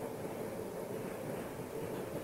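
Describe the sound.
Steady, dense rumble of a moving train heard from inside the carriage, a continuous low roar with even loudness and no distinct clacks or voices.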